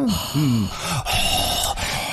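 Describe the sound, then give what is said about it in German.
A voice imitates an annoyed groan with a few short, wavering moans over a steady background hiss. “Wie geht dieses genervte Stöhnen? Wie war das?”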